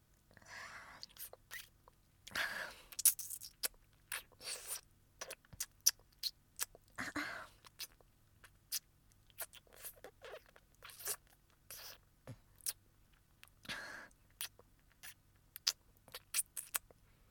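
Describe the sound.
Crisp crunching and chewing sounds in an ASMR recording, coming in irregular clicky bursts and brief crackles. Close and fairly quiet, with short pauses between bites.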